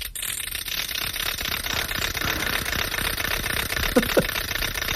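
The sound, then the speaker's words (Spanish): A wooden ratchet rattle (matraca) is spun, giving a continuous dense clattering buzz with a rapid, even pulse. It holds at a steady loudness throughout. “No, es una matraca, yo creo. Una matraca, pues muy bien, es una matraca.”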